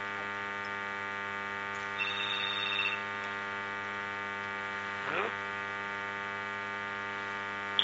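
A telephone ringing during a studio call-in: one short, trilling ring over a steady low electrical hum, faint and without talk.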